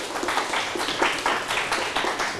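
A group of people clapping together in a counted team game, a steady rhythmic run of sharp claps in unison at a brisk, even pace, fairly quiet.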